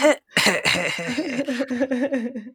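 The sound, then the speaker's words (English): A person gives an odd, voiced cough: a sharp initial burst, then a throaty, wavering croak made of many quick pulses. It is heard alone and is moderately loud. “As you make a really weird cough.”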